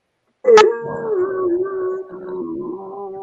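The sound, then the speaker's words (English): A human voice imitates a dog howling: one long, wavering howl that starts with a sharp yelp-like onset, then holds a steady mid pitch with slight dips for nearly three seconds, alone and fairly loud. “my dog saw me and my dog went,”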